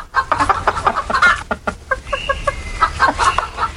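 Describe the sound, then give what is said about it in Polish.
Hens cluck steadily in a flock. Many short, overlapping, mid-pitched clucks repeat in an uneven rhythm with no pause, fairly loud throughout. “I co jeszcze usłyszymy? Kurki dzisiaj usłyszymy.”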